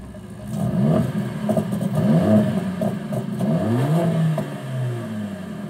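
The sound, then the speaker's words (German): A Mercedes-AMG high-performance engine revs repeatedly. Its loud, throaty note sweeps up and down several times with a rumbling, clattering texture, and no voices are heard. “Ein Hochleistungsaggregat, das mit effizienter Kraftentwicklung und sportlichem Sound begeistert. Bei Mercedes AMG gibt es sogar Soundkostproben für die Ohren.”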